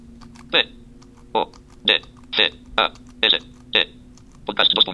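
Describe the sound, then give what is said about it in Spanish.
Computer keyboard keys pressed while editing a presentation slide, including the Enter key: seven separate, evenly spaced clicks followed by a quick flurry of keystrokes, with a steady low electrical hum underneath. “Le voy a dar un enter y ahora le voy a escribir podcast.”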